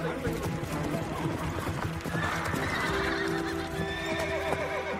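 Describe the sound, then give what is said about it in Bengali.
Soldiers' horses clip-clop and a horse whinnies as the riders halt near a graveyard. The hoofbeats are dense and steady, with a neigh rising above them, and the sound stays loud throughout. “আর একদল এসে আমার সামনে ঘোড়া থামাল।”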